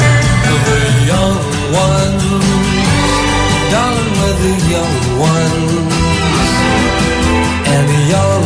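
Theme song of a television comedy series playing loud and continuous, a full band with steady rhythm and melodic lines throughout.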